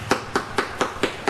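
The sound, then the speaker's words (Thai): Knocking on the husk of a ripe durian, its flesh loosened from the shell, to test ripeness: six evenly spaced, dull, hollow knocks at a steady rhythm, with nothing else heard. “นี้คือเสียงทุเรียนที่หลวมแล้วพร้อมที่จะแกะกินได้คือเป็น”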